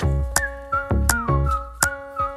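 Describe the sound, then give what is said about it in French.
Whistled theme tune of a feel-good weekend DIY television programme: a bright melody of short whistled notes over a bouncy backing with regular percussive hits and bass. “Et comme dans tous les programmes feel-good, le générique est sifflé.”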